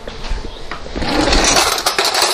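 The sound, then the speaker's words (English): Eggs being mixed up for scrambling, a loud, busy rattle of rapid strokes and scraping against the bowl that continues without pause. No talking. “And actually, I need to mix up these eggs.”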